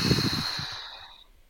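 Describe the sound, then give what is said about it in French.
A long, open-mouthed exhale during a guided breathing meditation: a breathy rush that is slightly voiced at the start and then fades away smoothly over about a second and a half. “Soufflons. La bouche ouverte, et tout le long de cette méditation, je vais vous encourager à garder la bouche entrouverte et à souffler”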